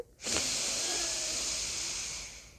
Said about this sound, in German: verschließe dein rechtes Nasenloch mit dem Daumen, atme links ein